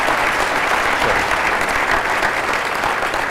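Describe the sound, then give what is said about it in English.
An audience applauds a president at a public talk with questions from the floor. The clapping is dense and steady, holding at an even level throughout with no pauses. “Okay, a big round of applause for our president.”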